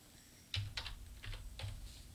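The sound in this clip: Quick typing on a computer keyboard, a few faint, sharp key clicks in an uneven rhythm, separated by short gaps, with no voices.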